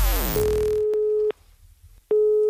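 Telephone ringing tone on a call placed for a prank: a steady single-pitched tone rings about one second, falls silent, then sounds again and continues to the end, loud and alone.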